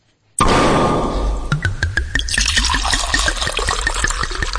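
A bottle of Argentine Malbec from Mendoza is poured. The liquid starts as a loud, steady rush, then breaks into many quick, rhythmic glugs that continue to the end.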